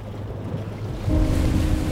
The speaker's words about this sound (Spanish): Soy la ola. Hija del viento. Y el mar, del sol y la luna.